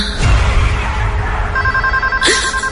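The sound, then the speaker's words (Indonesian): A telephone rings in a room with short, steady electronic tones, heard over a loud, dense rumbling background. “ini telepon bikin kaget aja deh”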